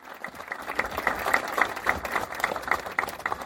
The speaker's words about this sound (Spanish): para quien también pido un aplauso.